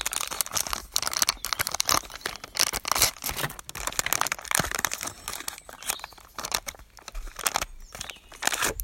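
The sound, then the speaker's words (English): Crinkling and tearing as an Instax instant film box is opened and its foil wrapper ripped. The rustle is dense and crackly, with sharp bursts of crumpling that run throughout and no talk over it. “So now it's Instax time. Right, got to open the box. And then the foil.”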